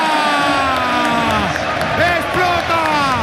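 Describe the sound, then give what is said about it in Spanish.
A loud crowd roars at Camp Nou as Barcelona celebrate winning the league after a clásico. The steady noise holds throughout, with voices shouting and whooping over it. “¡Explota el Camp Nou! ¡Bailan los jugadores del Barcelona!”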